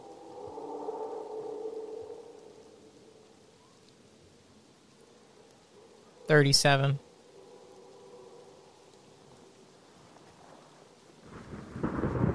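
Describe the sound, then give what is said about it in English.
Thunder rolls through a stormy scene in low, rumbling swells, then a sharp, bright crack bursts out in the middle. A fresh rumble builds again near the end. “you look over towards where the thunder is coming from.”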